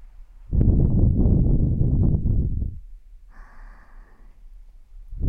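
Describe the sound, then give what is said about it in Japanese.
Gentle blowing into the left ear in ASMR: one long, soft breathy puff of about two seconds, followed by a quieter airy hiss and the start of another puff at the end. “ぬるぬるが抜けた後は右のお耳と同じようにふうふうしましょうね。”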